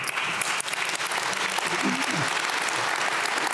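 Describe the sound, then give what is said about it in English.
Audience applause during a political discussion: loud, dense, unbroken clapping across the whole stretch, with a brief voice rising faintly midway through. “You're a very clappy audience. I love it.”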